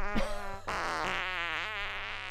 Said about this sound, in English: There's farts.